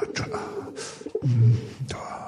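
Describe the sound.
Pigeon cooing: a low, throaty coo swells midway through, with brief soft bird sounds and rustling around it.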